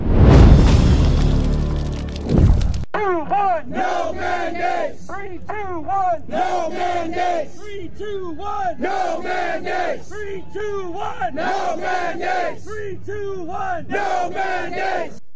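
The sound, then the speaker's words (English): Firefighters at a COVID-19 mandate protest in Washington, D.C. chant as a large crowd, loud rhythmic shouted phrases repeating steadily after an opening burst of dense noise. “Firefighters. That's what you're looking at there. Firefighters from across America coming together in Washington, D.C. to protest COVID-19 mandates.”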